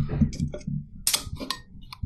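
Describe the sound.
A can of Red Bull Peach Edition cracked open: a short, sharp pop with a brief fizzing rush, among a few small clicks and handling noises.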